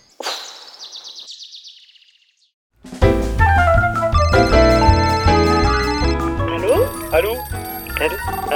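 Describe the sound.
Telephone ringing for a call: a bright, high electronic trill pulses rapidly for about two seconds, falls silent briefly, then loud music takes over for the rest.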